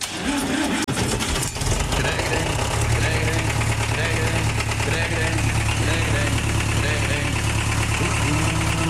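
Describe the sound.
A tractor engine runs at a steady idle, giving a low, even drone with a faint knocking vibration that holds unchanged throughout.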